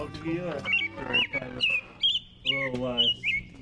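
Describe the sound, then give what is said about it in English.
An American robin sings bright, short whistled phrases in quick succession, rising and dipping, while a person talks over the song. “American robins begin piping up in late winter and then sing all through spring and summer.”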